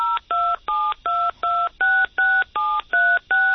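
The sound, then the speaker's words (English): Rapid run of ten touch-tone keypad beeps as a phone dials a ten-digit cell number after the dial key is pressed. The dual-tone bursts are evenly spaced and steady, with nothing else heard. “And if I need to, I'll just press the dial key.”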